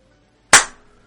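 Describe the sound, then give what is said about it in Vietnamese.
A single hard slap of a hand, one sharp crack with a quick fading tail, heard alone. “Sở Nhị Yên vỗ mạnh tay mình một cái.”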